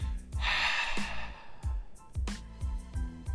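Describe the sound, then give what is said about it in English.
A long, breathy exhale during a guided prayer, soft and airy, heard over quiet, sustained tones with a few later breath-like puffs. “So let's go ahead and exhale.”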